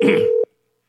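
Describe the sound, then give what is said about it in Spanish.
A telephone number is dialed to place a call: a single steady, mid-pitched keypad tone rings out over a noisy hiss and then cuts off abruptly, leaving near silence. “Atentos, estamos llamando al candidato regional”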